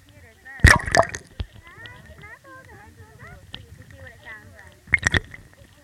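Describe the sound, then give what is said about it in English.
Underwater ambience with a steady high tone, warbling chirps and whistles throughout, and two loud bursts of crackling, snapping clicks near the start and the end. “Do you want to hear what it's like underwater?”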